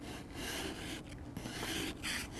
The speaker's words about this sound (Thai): ส่วนตรงนี้มันจะแข็งกว่าก็ใช้ขูดขูดขูดออกเนี่ย